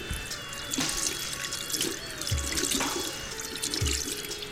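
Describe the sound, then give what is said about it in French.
Water pouring in a steady, continuous splashing hiss with a few soft low thumps mixed in. No voices are heard. “je vais reprendre un petit peu d'eau.”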